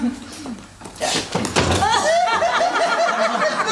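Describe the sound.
A door is opened for an arriving visitor, giving a few dull thuds and knocks in the first half while people talk over it.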